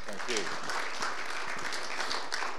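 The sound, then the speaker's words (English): Applause from a church audience welcoming a pastor to the front, steady clapping that fills the whole stretch, with a voice heard faintly beneath it. “Let's put our hands together.”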